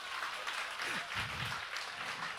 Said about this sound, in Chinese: 哈利路亚！给掌声给耶稣先。